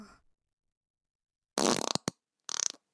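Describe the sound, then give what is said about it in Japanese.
Human farting: a long, loud, sputtering burst, a brief pop, then another rattling burst, each with a rapid fluttering rhythm and silence between them. “汚い音出ちゃった。でもお尻の穴が震えてちょっと気持ちいいかも。”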